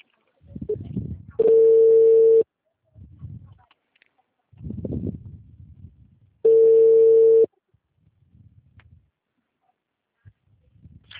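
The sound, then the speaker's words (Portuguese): Telephone tones after a dropped call: two long, steady, loud beeps, each about a second long, separated by a pause, with low muffled noises in between. “Oi, a ligação caiu.”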